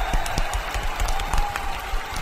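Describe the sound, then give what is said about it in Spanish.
Applause from listeners after a story reading: a short, fairly loud burst of scattered clapping from a small group, steady across two seconds. “¡Aplausitos!”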